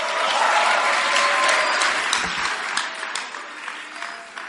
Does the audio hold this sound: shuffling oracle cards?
no